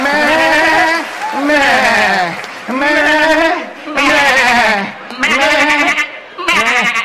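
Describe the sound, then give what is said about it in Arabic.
A voice imitates a sheep's bleating, giving six long, quavering cries with short gaps between them, loud and nasal. “I know it, I know it. It's a sheep.”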